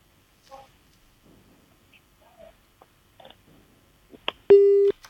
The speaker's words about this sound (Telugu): Call cut అయింది sir.